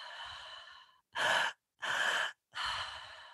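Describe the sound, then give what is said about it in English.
Breathwork breathing, two-part inhale into belly and upper chest followed by a relaxed exhale through the mouth: a long fading breath, then three separate airy breath bursts with brief silent pauses between them, with no voices. “And then the second breath is in your high chest, so between your heart and your throat. And then just a relaxed exhale through the mouth”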